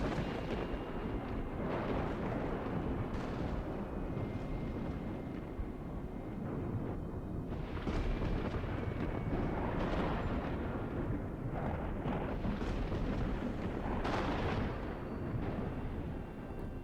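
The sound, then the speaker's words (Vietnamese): Dry thunder rumbling without rain, a loud, continuous deep roar that swells and rolls with no breaks and no voices throughout. “Ở bên ngoài trời mặc dù không mưa mà lại nổi sấm khan đùng đùng.”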